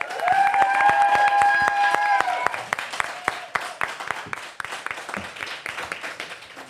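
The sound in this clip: Audience applause and cheering greet a guest arriving on a French-language talk show: dense, loud clapping from the whole crowd that starts with a few sustained musical tones, then thins into scattered claps and fades toward the end.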